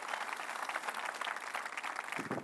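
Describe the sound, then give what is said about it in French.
Applause from a church audience, dense steady clapping that holds throughout and then thins out at the end. “Bonne main d'applaudissement pour la réponse à la prière de Moïse.”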